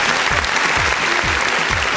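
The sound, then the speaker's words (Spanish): Applause from a crowd: dense, even clapping that fills the whole clip at a steady level, with no clear pauses or peaks. “Y... ¿Aplausos?”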